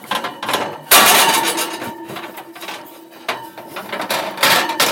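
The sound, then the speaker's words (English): Metal clanks and grinding scrapes ring out as a heavy pizza steel, roughly 14 by 16 inches, is slid onto the bottom rack of an oven. Sharp knocks and rattles come in irregular bursts over several seconds. “Then I'm going to place my pizza steel in the oven, and I'm going to put it on that bottom rack.”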